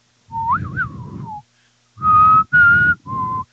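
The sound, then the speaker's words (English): A person whistling a short tune alone: a warbling, wavering opening phrase, then after a pause three clear, steady notes, the last one lower. “I can't whistle great, especially into a microphone.”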